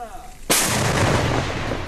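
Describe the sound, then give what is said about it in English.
A Ukrainian Soviet-made T-64 tank, camouflaged in trees in the Donbass region, fires its main gun: quieter sound gives way to a single sudden, heavy boom with a long, loud rumbling tail. “A Ukrainian T-64 Soviet-made tank fires while camouflaged in trees.”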